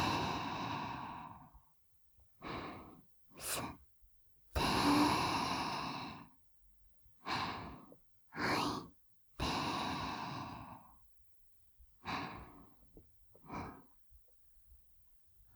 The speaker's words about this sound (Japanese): 深呼吸深呼吸、吸って吐いて